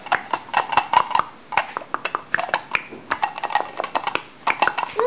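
A pot being handled and knocked about, giving many sharp metallic clinks and clatters in an irregular, busy rhythm across the whole stretch.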